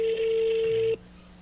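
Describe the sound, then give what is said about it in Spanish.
A steady, mid-pitched electronic telephone tone sounds as a call is dialed, then cuts off abruptly, leaving faint background noise. “Bueno, a ver. Ahí va la llamada.”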